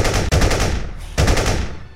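Automatic rifle gunfire in a few rapid, sustained bursts, loud and harsh, with a sharp break between the first bursts and a short lull before the final volley tails off.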